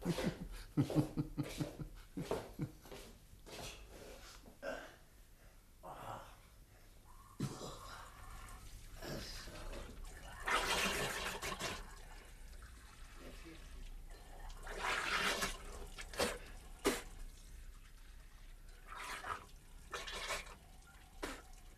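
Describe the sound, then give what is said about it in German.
Running tap water as someone holds their head under the tap: quiet, irregular splashing and gushing with several louder bursts of water separated by near-silent gaps. “Ich bin gleich wieder da. Ich steck bloß mal den Kopf unter die Wasserleitung.”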